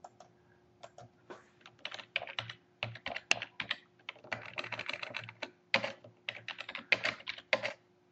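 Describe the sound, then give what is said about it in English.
Fingers typing on a computer keyboard in quick, irregular bursts of crisp key clicks, with brief pauses between runs over a faint steady hum. “I'm going to try and type in amazing.”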